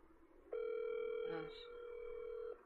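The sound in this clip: Steady telephone dial tone during a call being redialed: one continuous mid-pitched hum with a bright overtone, starting abruptly, holding for about two seconds with a brief wavering near the middle, then cutting off.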